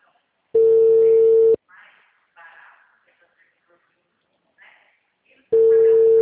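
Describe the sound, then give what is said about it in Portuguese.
Telephone call tones while a call is dialed: two long, steady, loud beeps with a few faint, brief voice-like sounds in the quiet gap between them. “Peraí que eu tô ligando. Peraí que eu tô ligando.”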